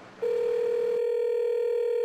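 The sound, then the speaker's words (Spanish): A steady telephone tone sounds as relatives call someone's phone: a single unbroken tone that starts after a brief low hiss and holds at an even, moderately loud level, with no separate key beeps. “Los familiares de Valentina no paraban de marcarle al teléfono.”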